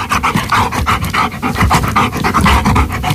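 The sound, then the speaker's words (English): A dog pants in quick, rhythmic breaths, loud and unbroken, with many rapid airy puffs in a steady, even pattern and no voices. “An animal noise today, and we got quite a few correct answers in, but I could only choose one winner, and here she is to reveal what the answer is. Hello, I'm Grace and I'm from Oma, and I think the answer is a dog panting”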